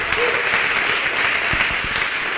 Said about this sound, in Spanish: ¿Cuántos dan un aplauso al Señor?